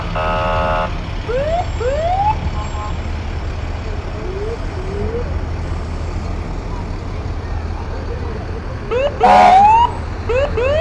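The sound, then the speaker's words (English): A fire engine siren passes as the truck makes its way along a main street, with rising whooping sweeps in a few bursts over a steady traffic rumble and a loud blaring blast near the end. “And behind them, you have another Jackson Fire Department unit. This is engine 1408, making its way through.”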